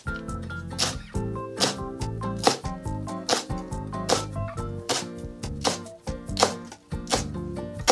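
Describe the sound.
A knife chops garlic chives finely on a board as part of preparing a soup, giving many quick, crisp taps over background music.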